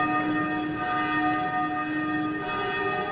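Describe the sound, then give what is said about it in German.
Church bells ring for the Benedictine nuns' hour of prayer at a convent in Cologne-Raderberg. Their full, overlapping tones hum in a steady, continuous peal with no voices. “Es wird zum Stundengebet der Benediktinerinnen in Köln-Raderberg geläutet.”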